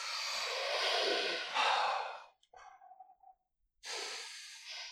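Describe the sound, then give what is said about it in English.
Slow, deep breaths, loud and airy: a long heavy breath, some ragged shorter puffs, a brief silence, then another deep breath, with no talk. “Why don't we all just take a few deep breaths?”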